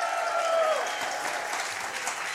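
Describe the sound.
A live show audience claps and cheers, with a continuous, dense wash of applause and crowd noise that stays level and moderately loud throughout.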